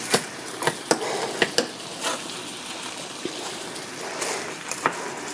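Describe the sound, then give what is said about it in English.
Food is stirred in an oiled cooking pan. A soft sizzle sits under scraping strokes, broken by several sharp clicks of the utensil against the pan, with no talking. “And as I said before, I stir from the outside of the pan in, and then in the middle I kind of”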